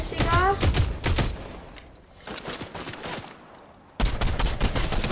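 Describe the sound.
Gunfire from a gray-rarity pump shotgun landing a headshot during the final round of a Fortnite match: a few loud, sharp blasts, then a dense, sustained burst of shots near the end.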